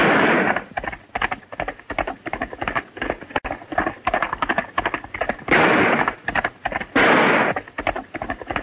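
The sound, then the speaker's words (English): Pistol shots ring out in a gunfight: many sharp, loud cracks come in irregular rapid bursts, with a few longer noisy blasts between them. “Zanty draws his pistol and fires back at John.”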